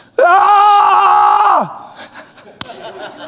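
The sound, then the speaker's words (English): A loud shout of joy, demonstrated as a prayer shout: one long voiced cry held steady for about a second and a half, then sliding down in pitch and breaking off into near quiet. “See, a prayer shout is a shout of joy. It's a shout in hope. It's a shout of faith. It's a shout of triumph. You see, well, what does it sound like?”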